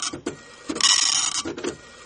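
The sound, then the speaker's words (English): A printer runs in the background in uneven bursts. Short clicking feed noises alternate with a longer whirring printing pass in the middle, followed by a few more brief mechanical bursts. “I'm sorry, the printer's going on in the background because we're getting a serious problem with this.”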